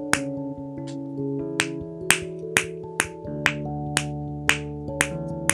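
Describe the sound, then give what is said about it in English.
Sharp, rhythmic snaps from a pineapple snapper fidget toy being snapped repeatedly, many crisp clicks at a fairly even pace over steady tonal music. “And then my next fidget is probably this snapper. And it's a pineapple snapper, it's really good.”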